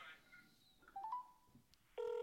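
A phone call is dialed: a few faint, short keypad tones sound at slightly different pitches, then a louder steady tone begins near the end.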